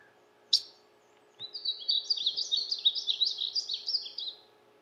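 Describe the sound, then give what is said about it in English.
Painted bunting song in hill country: one sharp click, then a rapid, high, sweet warble of tumbling chirpy notes running for about three seconds, faint and alone. “This is a painted bunting.”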